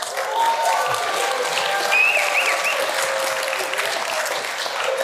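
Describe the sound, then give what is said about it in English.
A church audience applauds in steady, dense clapping that stays loud and even from start to finish, with no voices standing out. “so kids, if you're in here, they all just applauded for you.”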